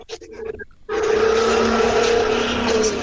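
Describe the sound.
Motorcycle engine heard over a phone call: after a brief, broken start, a loud steady engine drone with a buzzing tone sets in and continues unbroken to the end.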